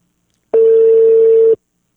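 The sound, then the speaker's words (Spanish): A telephone tone as a call is placed: a single steady mid-pitched beep lasting about a second, clean and loud, with silence before and after. “Ahí le estoy marcando al Capi.”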